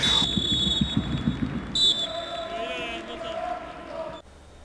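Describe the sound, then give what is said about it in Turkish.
A referee's whistle signals the kickoff of a cup football match: a shrill high tone and then a brief trilled blast over a steady murmur of crowd noise. “İlk düdük sesi, maç başlıyor.”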